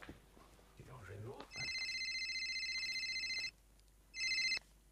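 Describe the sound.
A mobile phone ringtone, set off by an accidental call after the phone was sat on, plays as a steady, bright electronic melody for about two seconds, pauses, then sounds again briefly, following a short stretch of talk.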